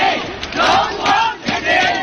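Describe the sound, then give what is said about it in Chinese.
Hometown fans, some of them grey-haired elders, chant in unison for Guangzhou footballer Feng Haoran at a match. The crowd of voices rises and falls in loud, rhythmic bursts as the phrase repeats. “浩然浩然，勇往直前。 这是来自广州队球员冯浩然的家乡球迷团，加油方阵中不乏头发花白的长者。”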